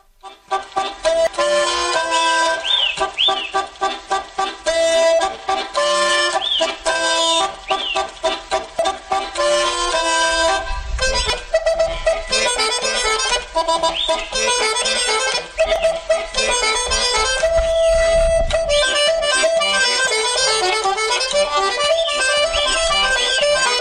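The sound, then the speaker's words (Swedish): Old-style diatonic button accordion playing a lively polka: loud, continuous, bouncy melody with quick repeated clucking figures over a steady oom-pah bass pulse, played alone without voices. “Han spelar på sitt... jag vet inte om det är mycket gammaldags durspel, men vi får väl höra hur det låter.”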